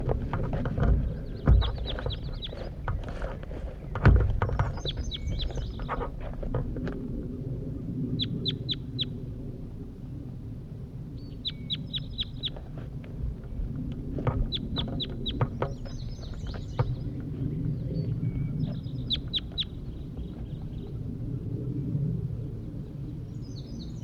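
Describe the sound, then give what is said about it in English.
A just-released bird, tagged number 81, gives short high chirping calls in many quick clusters across about twenty-four seconds. The calls sound over a low, steady background rumble. “I think this is bird 81 calling here. Just released him.”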